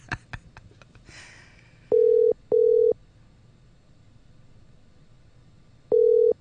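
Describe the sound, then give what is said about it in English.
An outgoing telephone call: a few clicks, then the ringing tone on the line. Two short, steady tone bursts come close together, a pause follows, and then another burst begins. “I'm going to call you right now, and you're going to pick up the phone because we're going to be live on air when I do it.”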